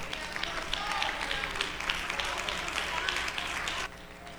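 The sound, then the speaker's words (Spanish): Church audience applauding the Lord during a Spanish-language service: dense, steady clapping at moderate loudness, with a few brighter individual claps standing out, then a drop to a quieter level near the end. “Ustedes pueden darle un aplauso al Señor.”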